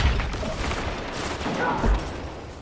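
Loud, dense gunfire fills a GTA V FiveM zone-capture match, a continuous barrage of overlapping shots with no gaps between bursts.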